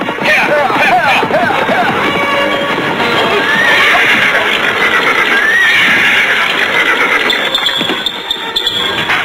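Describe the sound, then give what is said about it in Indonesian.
Horses neighing: high, shrill whinnies stand out above a dense, continuous, noisy background that lasts throughout. “Sebaiknya kita tinggal saja kuda kita di sini.”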